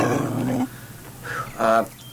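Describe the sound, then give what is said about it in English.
A guard dog growls at someone opening a gate: first a long, rough, low growl, then after a short pause two shorter growling bursts. “Nice dog. Nice dog.”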